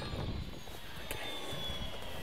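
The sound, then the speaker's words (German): A small plane's engine drones steadily as it lands on a self-built airstrip in a remote valley, a continuous even roar with no voices. “Rodrigo landet im Ventisquero-Tal, einem entlegenen Flecken mitten in Pumalin.”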